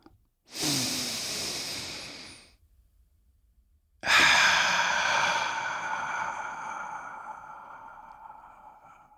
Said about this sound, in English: And so, if you're ready, let's take a deep breath.